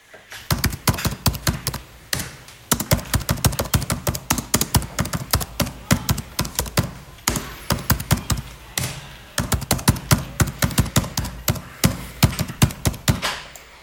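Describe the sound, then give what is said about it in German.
Rapid typing on a computer keyboard: many crisp keystroke clicks fall in quick bursts, separated by brief pauses, steady and fairly loud throughout. “Eine Computertastatur.”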